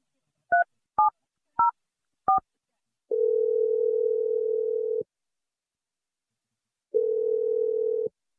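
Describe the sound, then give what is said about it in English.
Telephone number being dialed: four short, clipped keypad tones in quick succession, then two long, steady electronic tones separated by a pause, clear and alone with no talk. “I'm dialing the number right now. Here we go.”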